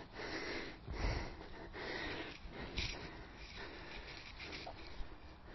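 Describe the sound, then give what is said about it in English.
Someone breathes heavily while catching their breath during a 90-second rest in an interval running session. The breaths are faint, repeated and uneven, with sniffs and snorting inhales. “Oh, I get my breath back.”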